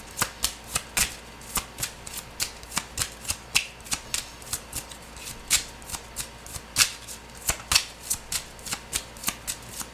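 Crisp riffling and flicking of tarot cards being shuffled, many sharp papery snaps in a quick, fairly steady rhythm with no talk.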